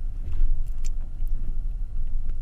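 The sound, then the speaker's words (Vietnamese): Low engine rumble of a Honda motorbike moving slowly as it turns from a main road into an alley, a steady throbbing drone with light mechanical ticks above it and no talking. “Vừa lúc đó, một chiếc xe Honda từ ngoài đường cái chạy chậm chậm rẽ vào con hẻm.”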